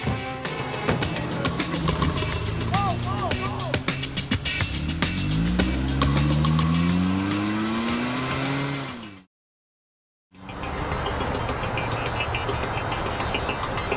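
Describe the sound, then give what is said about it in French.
A car engine revs and accelerates as robbers flee in a cashier's stolen car, its tone climbing over several seconds before cutting out briefly, then giving way to steady road rumble. “Ils prirent la fuite dans la voiture de la caissière.”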